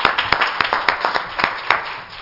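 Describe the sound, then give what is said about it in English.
An audience claps in praise at a church service, striking a loud, steady beat in unison. Each crisp clap lands at an even tempo, and the sound eases off slightly at the end. “let's give the Lord another hand clap of praise.”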